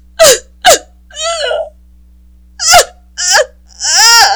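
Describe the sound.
A woman sobbing with hiccuping gasps: about six short, convulsive bursts of breathy, wavering cries separated by brief pauses, loud and with no talk over them.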